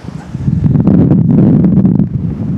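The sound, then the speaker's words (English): Wind buffets a microphone outdoors: a dense, low rumbling roar that swells in gusts, with faint rustle above it, steady and fairly loud throughout with no talking. “And hood up to avoid the wind again.”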